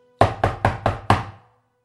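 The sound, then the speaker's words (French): Knocking on the door of an inn: five loud, evenly spaced knocks, alone, then silence. “Tout à coup, il est réveillé par quelqu'un qui toque à l'auberge.”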